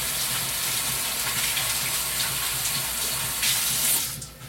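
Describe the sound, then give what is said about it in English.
Running water from a tap as hands are washed under it, a steady loud hissing gush with small splashy variations that swells briefly before trailing off at the end. “Wash my hands.”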